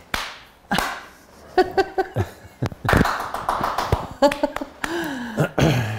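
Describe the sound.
A film clapperboard snaps sharply several times, dry wooden cracks scattered among voices talking.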